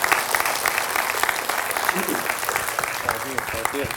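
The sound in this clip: Warm applause from a large audience welcoming a speaker as he steps out, dense, steady clapping throughout, with a voice briefly heard over it near the end.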